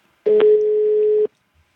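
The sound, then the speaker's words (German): A telephone ringback tone heard by the caller while an outgoing call rings: one steady, mid-pitched tone lasting about a second, with nothing else around it. “Es klingelt. Ja. Klingelt das Telefon.”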